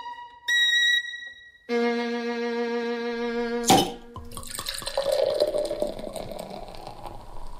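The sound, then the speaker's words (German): Beer poured from a bottle, a steady gurgling, splashing pour lasting several seconds, preceded by two sustained pure tones and a brief sharp burst. “In seiner kleinen vogtländischen Firma studiert er das Ausgießgeräusch vom Flaschenbier.”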